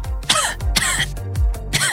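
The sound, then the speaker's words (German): People coughing in several rough, loud bursts, one after another, with short gaps between them and no talk. “Ja, überall. Husten Sie rum.”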